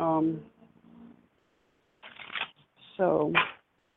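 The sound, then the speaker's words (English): Doreen Virtue goddess oracle cards being shuffled, with short bursts of papery riffling between stretches of a person talking. “But I'm using Doreen Virtue's goddess cards.”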